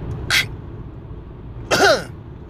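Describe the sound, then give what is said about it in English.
A person clears their nose with two short, forceful bursts of air, the second longer and throatier than the first, over a faint steady background hum. “I had to clear my nose.”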